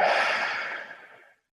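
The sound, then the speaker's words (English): A deep breath taken during a guided breathing exercise: one long, airy rush of air, like a slow exhale or sigh, starts fairly strong and fades away over just over a second, with no talking. “So I'll guide us through those breaths. So breathe in. Breathe out.”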